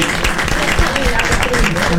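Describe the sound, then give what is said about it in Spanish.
Audience applause at a game show final, a dense, continuous patter of clapping with voices mixed in throughout. “La escribana, el aplauso para Bonassi, chicos, la escribana.”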